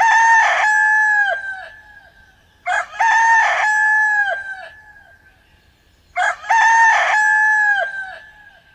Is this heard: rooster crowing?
yes